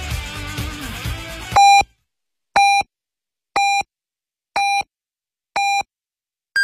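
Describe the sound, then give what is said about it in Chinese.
Radio hour time signal on a Beijing station in 2018. Five short, evenly spaced beeps come one second apart, and a sixth, higher-pitched tone begins at the end. They follow a stretch of talk and sound clearly, with silence between them. “现在是北京时间1点整。”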